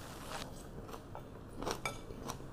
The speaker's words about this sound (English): I cooked up some bacon and some greens, right? This is like baby broccoli and a little bit of bok choy. Okay. A little bit of baby broccoli, bok choy, and bacon.